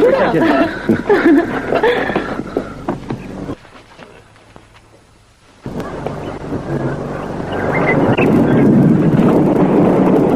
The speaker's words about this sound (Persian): صدای رعد و برقه.